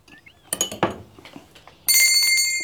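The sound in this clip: A hand bell rung to summon a servant: a few light clinks, then a bright, sustained ringing with steady high overtones that holds to the end.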